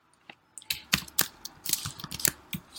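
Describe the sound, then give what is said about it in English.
Keystrokes on a computer keyboard as a name is typed for a new wallet in a wallet app, many quick, irregular clicks and taps in an uneven rhythm. “To create a new wallet, the user clicks in the top right corner here and enter the name of the wallet.”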